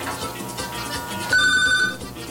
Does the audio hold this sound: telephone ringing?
yes